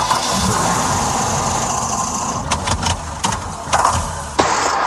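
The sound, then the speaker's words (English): A car engine struggles in cold winter weather, running rough and steady with a few sharp knocks and sputters toward the end. “Hear that? That's your car begging for some winter TLC at Ford Brothers Automotive Repair.”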